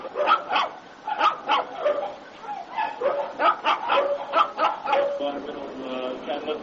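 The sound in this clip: Dogs barking and yipping at a non-government animal shelter that mostly houses dogs, with many short barks overlapping in an uneven run throughout, heard under people talking.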